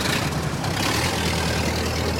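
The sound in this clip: A car engine runs as the car pulls away, a steady, continuous low rumble with no voices.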